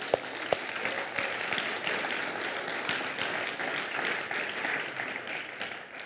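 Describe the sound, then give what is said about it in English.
Audience applause fills a church gathering as people clap to thank someone, with a few sharp individual claps at the start, then a loud, continuous rattle of many hands that fades away at the end. “somebody let him know we clap.”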